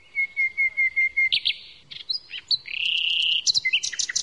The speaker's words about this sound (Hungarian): Hát a többi madár is érdekesnek tűnt. Nagyon kellemes a hanguk, szépek, kicsik, és elbújnak. Csak a hangukat lehet hallani.